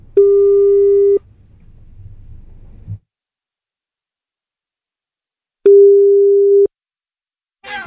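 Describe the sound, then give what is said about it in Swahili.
Ringback tone of a telephone call being placed, two steady mid-pitched beeps of about a second each separated by a long silent pause, with a low hum after the first beep. “Acha tumpigie simu pale vile.”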